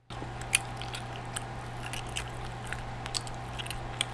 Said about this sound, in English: So it's really just going to be you eating some shit.